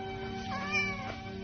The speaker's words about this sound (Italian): Tra quegli stracci, come a cercare qualcosa o qualcuno, si muove miagolando un gattino.